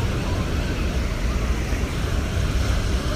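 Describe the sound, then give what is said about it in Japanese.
Ocean waves on the sea in Hawaii form a steady, dense rushing wash that stays loud and even throughout, with no clear break between swells. “埼玉はね、海がないから、やっぱこの海の音聞いてるだけで結構癒されます。”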